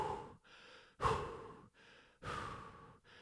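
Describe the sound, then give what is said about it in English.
A person breathes heavily on purpose, with deep, loud, rasping breaths alternating with softer ones in a slow, steady rhythm and no talking. “just breathing heavily like that”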